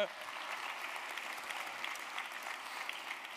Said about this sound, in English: Can we give just one more time the Lord a big round of applause, our worship team,